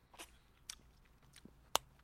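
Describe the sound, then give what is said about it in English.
Someone chews a cracked sour apple lollipop. A few faint, sparse crunching clicks are followed by one sharper crack near the end, with no talking. “Now, are you going to try and bust it to see? Oh, I heard something crack. Okay. cracked it. I don't know if I got to any of the booger. Okay, I'm tasting it.”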